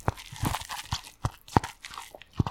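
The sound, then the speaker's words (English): Dry, crunchy noodles snap and crackle as they are bitten and broken, many sharp irregular crunches scattered through the quiet. “That's the noise of a noodle.”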